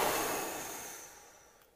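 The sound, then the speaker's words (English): A deep breath is blown out during a guided calming exercise. It is a steady, breathy hiss that starts loud and fades gradually over nearly two seconds, with no talk. “Close your eyes and take a deep breath in. Now blow out your breath here.”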